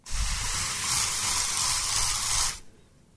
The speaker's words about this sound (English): I was introducing how I accidentally found my new scent for 2017. And sure enough, 365 days later, I'm still spraying my house and this studio when I'm in here,